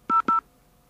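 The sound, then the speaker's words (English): Two short telephone keypad tones, dialing a password into an automated phone voicemail system. The clear electronic beeps come in quick succession with a brief gap between them, then fall silent. “dial your password and then push enter or pound”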